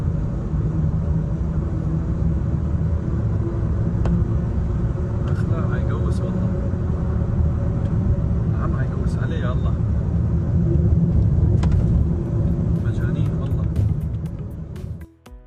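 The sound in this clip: A car overtakes a motorcycle on a road: a steady, loud engine and road rumble runs throughout, swelling slightly near the end before dropping away sharply.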